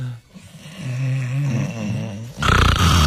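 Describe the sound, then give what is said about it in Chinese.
A voice imitating snoring: a long, low, rasping drawn-out snore for about two seconds, then a louder, harsher snorting burst at the end. “你说这打呼噜其实也挺烦人的”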